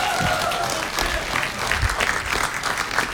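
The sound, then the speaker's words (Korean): Audience applause for a drummer: dense, steady clapping from a crowd carries through the full three seconds at an even, fairly loud level. “박수 박수 박수.”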